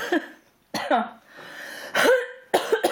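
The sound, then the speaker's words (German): Coughing from someone with a cold: four harsh, chesty coughs at irregular intervals, some trailing into throaty, voiced rasps, loud and close. “Entschuldigung, ich bin schon wieder am Rotzen.”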